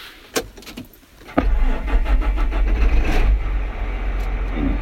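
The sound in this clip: A tractor engine starts: a few brief knocks are followed by the engine catching after about a second and a half and settling into a loud, steady, low rumble that runs to the end.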